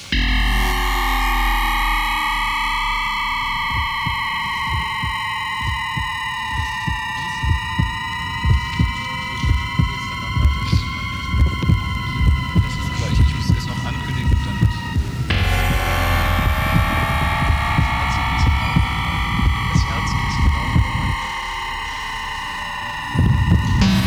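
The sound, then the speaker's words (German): Heartbeats pulse as steady low thumps beneath a sustained, droning horror sound effect of layered humming tones, which break off and restart partway through with a slightly shifted pitch, all without voices. “Wir werden noch einmal das Horrorgeräusch von Johannes Schmölling unterlegt von menschlichen Herzschlägen zu hören bekommen.”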